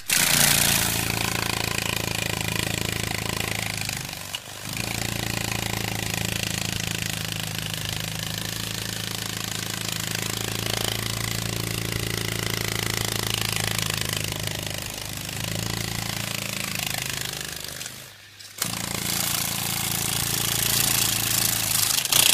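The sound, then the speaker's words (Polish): Amplified buzzing of an insect's wings: a loud, continuous, rough engine-like drone that holds steady throughout, broken by two brief dips. “No, a może to bardziej kosiarka jest, aniżeli helikopter. Oczywiście ja trochę ten poziom dźwięku podniosłem, ale przez to wyraźniej słyszymy to, co i tak jest faktem. Słyszymy, jakie mocne skrzydła ma ten owad,”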